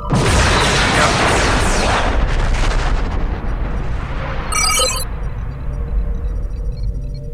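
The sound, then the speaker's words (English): Starship firing photon torpedoes in a space combat video game: loud, roaring blasts with falling, sweeping tones that fade out, then a short burst of electronic beeps near the end. “IKS Bortus is attacking USS Sovereign. IKS Bortus firing photon torpedoes.”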